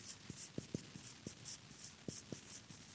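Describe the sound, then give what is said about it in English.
A word is written quickly in shorthand: faint, quick pen scratches in a run of many short strokes with brief pauses, no talking over them. “And up here, we're going to write experience. And I'm going to write it in shorthand, just quick.”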